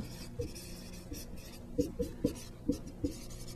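Handwriting during a mathematics lesson: a run of short, scratchy strokes, sparse at first and then clustered more tightly in the second half, with no talk.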